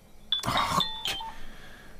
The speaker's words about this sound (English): your phone's ringing.